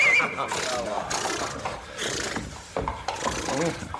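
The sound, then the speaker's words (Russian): A fine, stately horse whinnies amid rough rasping and rubbing noise, the neigh fairly faint and broken across the few seconds with irregular bursts of scraping texture. “Очень, очень хорошая, статистая лошадь. А позвольте, ваше сестра, узнать, как она ходит.”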